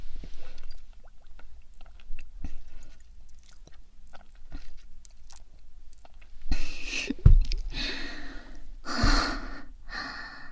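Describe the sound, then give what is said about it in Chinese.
Chewing and swallowing of food by someone who nearly choked on it, soft smacking at first, then louder wet chews, gasps and heavy breaths toward the end. “差点没噎死我。我吃完了，还要检查的，我当然会乖乖吃掉啊。”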